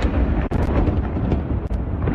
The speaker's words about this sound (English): The sound of a Russian missile pelting towards Kyiv was caught on camera by an AP reporter.